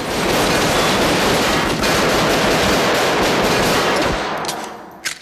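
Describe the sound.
Loud, rapid gunfire in a violent shootout, a dense, continuous burst of shots that runs for about four seconds and then cuts off abruptly.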